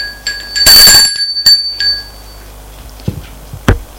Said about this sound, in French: Pas envie d'aller ouvrir. L'on sonne une deuxième fois.